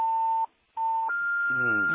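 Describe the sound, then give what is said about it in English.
Incoming phone call beeps: a steady electronic tone that breaks off briefly, returns, then shifts to a slightly higher sustained tone as a voice begins talking over it. “I think your phone, there's somebody who's trying to call you, Mr. Mavinga.”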